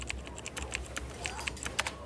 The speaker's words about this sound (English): type it in.